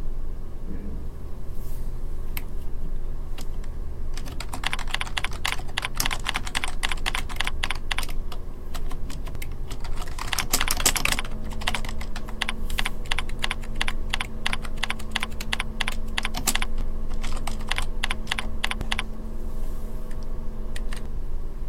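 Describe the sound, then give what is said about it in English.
Typing on a computer keyboard while writing up a file: many rapid keystrokes clatter in uneven bursts, with brief pauses between them, over a steady low hum. “Go ahead and type up your file and press Save.”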